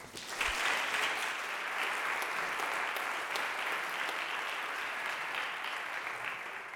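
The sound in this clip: Warm applause at a convocation as an audience welcomes a speaker to the stage: sustained, even clapping that swells briefly at the start and then holds steady throughout.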